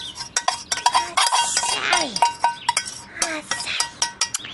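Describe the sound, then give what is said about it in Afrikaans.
A utensil scrapes sticky coconut ice mixture out of a bowl. Irregular clinks and scrapes of metal on dish run throughout, moderately loud and unevenly spaced. “Nou gooi ons dit in. So, maar dit is taai”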